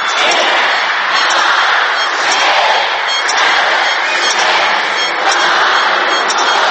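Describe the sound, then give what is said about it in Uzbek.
New Year fireworks welcoming 2011: a dense, steady roar of crackling bursts and pops, loud and continuous throughout, with no clear pauses. “dunyo ahli 2011-yilni mushakbozliklar bilan kutib olmoqda.”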